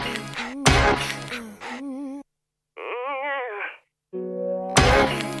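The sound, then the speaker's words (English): Orchestral hit stabs of the kind popular in 1980s and 1990s hip hop: sharp, bright bursts open and close a passage of sustained, wavering tones, with a short silence in the middle. “We start with an orchestral hit. Right. Which is really popular in the world of 80s, 90s hip hop.”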